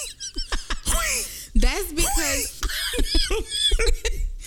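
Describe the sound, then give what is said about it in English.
Harsh, wheezing coughs follow an inhale from a pipe, broken up with squeaky, strained breaths and bursts of laughter. People talk throughout. “You gotta hit that damn pipe. I hear you wheezing over there. You inhaled”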